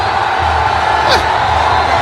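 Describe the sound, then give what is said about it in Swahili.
Simba football players and staff cheering after winning the championship, a loud, steady roar of voices with a single sharp, high whoop just past the midpoint. “Simba wanashangilia hapa, wanamkumbatia kocha wao. Ubingwa Simba umetoa jasho sana. Simba wanashangilia kweli kweli hapa benchi la ufundi.”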